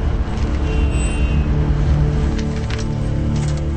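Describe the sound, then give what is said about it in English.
Slow, crawling traffic at a tunnel entrance: a steady low engine rumble and road hum, continuous and even in loudness, with faint hiss from passing vehicles above it. “The tunnel entrance. Traffic is crawling.”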